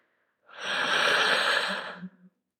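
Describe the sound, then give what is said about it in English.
A single deep breath drawn in during a guided meditation. The inhale is soft and airy, swelling quickly and then holding evenly for about a second and a half before tapering off, with no voices. “We'll begin by taking a deep breath in,”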